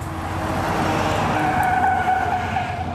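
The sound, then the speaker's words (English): American armored military vehicles pass by near bases in Syria, a steady, loud roar of engines and tires with a thin whining tone running through the continuous noise. “We're close to the American bases in Syria, and we just spot the American armored vehicles passing by.”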